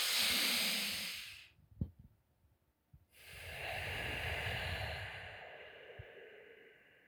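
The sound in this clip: Deep, slow breathing used to calm anxiety: two long, airy breaths, the first shorter and the second slower and longer, fading out. A brief quiet pause with a few faint clicks separates them.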